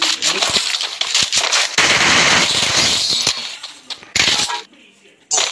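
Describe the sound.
Rapid automatic gunfire crackles in a shooter video game during a headshot kill. Dense bursts of shots run almost continuously, broken by a few short gaps, with a final brief burst at the end.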